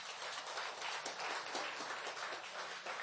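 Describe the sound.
A church audience claps together in a steady, dense wash of hand claps with no clear individual beats, fairly faint and continuous throughout.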